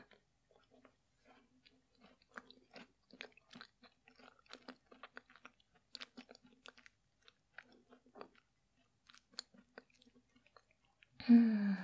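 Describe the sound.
Chewing of tart crust, faint crunchy bites and moist mouth clicks repeating irregularly for several seconds, then a short, louder voiced murmur at the end.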